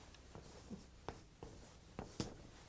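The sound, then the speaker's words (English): Chalk writes numbers on a blackboard: a few faint, scratchy taps and short strokes spaced irregularly, very quiet with no voices. “I'd like to use the blackboard for a moment in order to write some numbers.”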